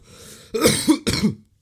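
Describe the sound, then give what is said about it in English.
A short burst of harsh, throaty coughing, a few sharp rough hacks in quick succession after a faint breath, loud and alone without talk. “sorry for the random coughing and sneezing and sniffling again”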